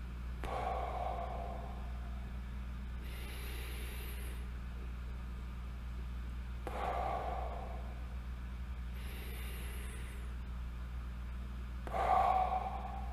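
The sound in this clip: Deep breaths taken during a guided breathing exercise. Three faint, airy breath sounds come at roughly even intervals, separated by softer pauses, over a low steady hum.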